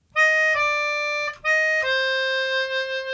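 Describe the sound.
Melodica playing a slow four-note minor phrase: flat third, second, flat third, then the root. The reedy, sustained tones end with the lowest note held longest and fading slightly.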